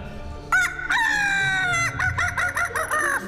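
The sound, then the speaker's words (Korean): A rooster crows loudly in one long drawn-out call with a rising then sustained pitch. It is followed by a run of shorter, choppy crowing and clucking bursts, and no voices are heard. “닭 소리가 들립니다.”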